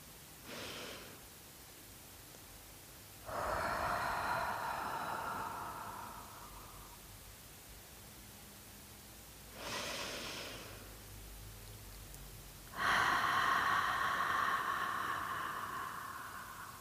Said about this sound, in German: Ich atme langsam und ich atme langsam tief ein und aus.